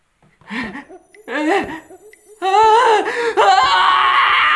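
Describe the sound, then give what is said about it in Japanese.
A performer acts out screams of agonized wailing in a timed comedy challenge: two short, strained vocal wails are followed by sustained, loud, high-pitched screaming that wavers in pitch. “じゃあお題、10秒間で阿鼻叫喚を表現してください。”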